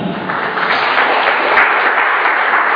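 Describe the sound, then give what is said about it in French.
An audience claps loudly and steadily during a French-language church service, a dense, even wash of many hands that holds at the same strength throughout. “Merci, acclame Dieu pour sa vie.”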